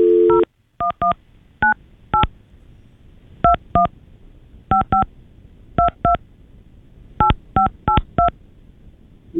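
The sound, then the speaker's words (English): Touch-tone keypad dialing an international phone number, the 011 exit code followed by 98. Many short, clean dual-pitched beeps come alone in quick clusters separated by brief pauses. “You got to dial 011, which is the U.S. International Exit Code. Yeah. All right. 011. And then you dial 98.”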